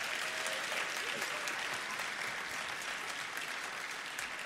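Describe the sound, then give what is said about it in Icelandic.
Applause at the Músíktilraunir band competition award ceremony honours the event's first sound engineer from 1982. The clapping is dense, even and unbroken from start to finish, with no voices over it. “En það má klappa fyrir því.”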